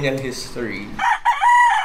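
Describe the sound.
A rooster crows on a breeder's farm in the Philippines: one loud, drawn-out, high-pitched crow with a brief break, filling the second half after a lower, softer opening.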